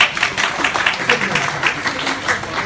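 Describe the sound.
Audience applause greets comedians on stage. A dense, even patter of many hands clapping continues throughout, with a voice faintly audible beneath it.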